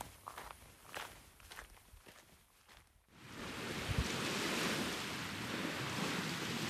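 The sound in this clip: Footsteps of someone setting off along a nature trail: a few soft, uneven steps, then a steady, loud rushing noise like wind or surf takes over for the rest of the time.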